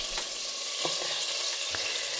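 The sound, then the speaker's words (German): Diced bacon sizzles in bubbling margarine in a pan, a steady dense crackling hiss with a few sharper pops. There is no talk. “Das Ganze dann in die Margarine, die da vor sich hin brutschelt.”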